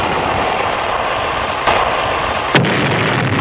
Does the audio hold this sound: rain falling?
no